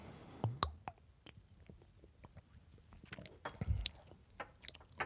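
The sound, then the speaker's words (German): A sip of Kellerpils beer, heard as quiet, scattered mouth sounds with a few louder gulps and swallows among soft clicks. “So, ein Schluck mal. Ich hoffe, ihr verzeiht es mir. Äh, Bier trinken beim Podcasten, ausnahmsweise mal.”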